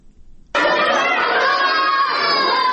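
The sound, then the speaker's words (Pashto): Children play and shout during school recess in Lashkar Gah. After a brief quieter moment, a loud, dense mass of young voices bursts in and holds steady to the end. “د ورځې 10 بجې دي، ماشومان هم د تفریح په دې څو دقیقو وخت کې لوبې کوي.”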